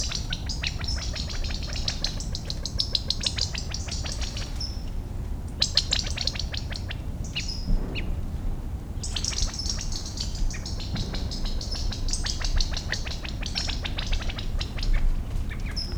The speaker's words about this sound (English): I see a number of chicks moving through a buckeye, perhaps half grown. I think that's a quail also.